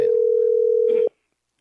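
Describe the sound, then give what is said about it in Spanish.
Ringback tone of an outgoing telephone call that rings unanswered: one steady, mid-pitched tone holds for about a second, then cuts off abruptly into silence. “Una vez más le estamos llamando a Percy Bazán. No, no quiere atendernos.”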